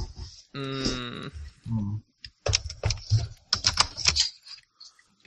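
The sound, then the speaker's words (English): Typing on a computer keyboard sounds as a quick, irregular burst of crisp key clicks, alone and without speech. “So I typed in the word green, because apparently Evernote is associated with green.”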